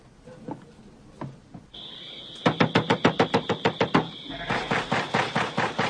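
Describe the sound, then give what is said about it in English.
Rapid knocking on the door of a makeshift farm shack at night: a loud run of sharp, evenly spaced raps, then a second, slightly softer burst of knocks. “Later that night, a carload of angry white men rap on the door of a makeshift farm shack.”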